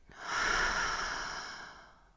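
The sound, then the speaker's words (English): A deep human breath, one long airy rush that swells quickly and then fades slowly over about two seconds, quiet and alone with no talk. “I want you to just take a deep breath in and fully exhale out.”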